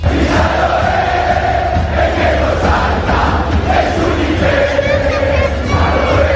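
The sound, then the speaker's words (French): Argentine football supporters in the stadium corridors in Kansas City, loudly chanting a teasing jumping song at rival fans; many voices sing in unison in a sustained roar that stays level and dense throughout. “Dans les coursives du stade de Kansas, les supporters argentins ont fait énormément de bruit en chambrant un petit peu leurs futurs adversaires.”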